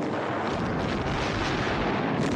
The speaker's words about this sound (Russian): Выпущенные снаряды ложатся за окопами.